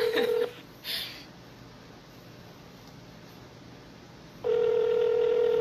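Telephone line tones: a brief steady tone and a short blip, a few seconds of quiet line hiss, then a long steady tone to the end. No voices.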